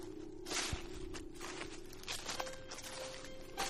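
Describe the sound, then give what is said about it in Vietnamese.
Footsteps rustle and crunch through dry leaves, faint and irregular, with a few scattered bursts of crackling over a quiet, steady hum. “Cùng lúc đó, ở bên tai của bọn họ vang lên những âm thanh loạt xoạt, như là tiếng dẫm đạp lên lá khô, càng ngày càng gần hơn.”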